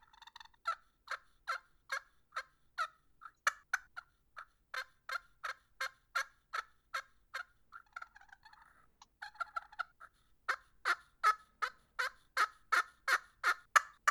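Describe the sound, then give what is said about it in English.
Turkey gobble imitated on a pocket slate turkey call made by AOK Calls: many quick, sharp yelping strokes in steady runs, with a short stretch of softer scratchy friction midway, played alone with no voices. “This is a little slate call. It's called a pocket slate.”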